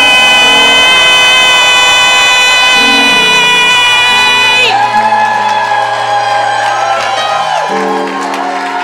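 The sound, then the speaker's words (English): A church audience cheers, whoops and shouts to welcome the bishop. The loud, continuous crowd noise carries over sustained, stepping musical notes and stays strong throughout. “I think you should make some noise. Put your hands together as we welcome our pastor, our prophet, Bishop Richard Ayi.”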